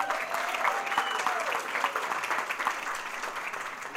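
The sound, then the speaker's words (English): Audience applause welcoming a guest at an event in Conroe: a steady, dense clapping that holds at an even loudness for the whole stretch, with a few whistle-like tones rising above it. “Give a big hand.”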